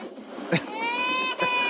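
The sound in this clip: A crying sound effect: one drawn-out, wavering wail, framed by short bursts of noise just before and after it.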